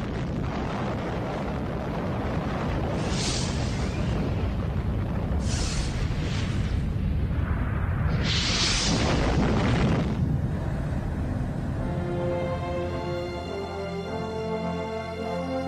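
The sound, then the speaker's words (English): A deep, roaring explosion from an atomic bomb test in the New Mexico desert: a sustained low rumble with several louder surging bursts, later giving way to steady tones. “they exploded the world's first atomic bomb in the desert in the southwestern state of New Mexico.”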